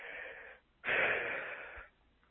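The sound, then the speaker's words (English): A deep breath is taken alone: a breathy inhale, a short pause, then a longer, louder, airy exhale that fades out. “And then we take a big, deep breath.”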